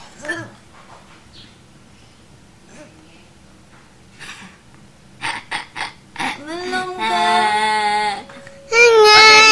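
A child cries and wails, starting with quieter sounds, then breaking into short loud sobs and finally a sustained, high-pitched, strained cry that gets louder toward the end.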